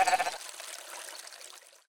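A small lamb held in someone's arms at a riverbank bleats in one short, wavering, fairly faint cry. It trails off into a soft breathy hiss before silence.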